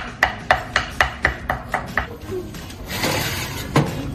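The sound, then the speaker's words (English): Knife chopping food into strips on a board: a quick, steady run of sharp, even taps, then a noisier stretch of rustling and clatter and one more distinct knock near the end. “We're just going to slice these into nice little strips. Don't put it on mine, okay? I won't put it on yours. Do you want to cut some of these for me? Yeah, with my knife.”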